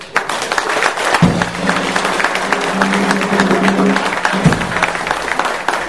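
Audience applauding a welcome at a pensioners' morning-coffee gathering: many hands clapping in a sustained, dense burst that holds steady and eases slightly toward the end.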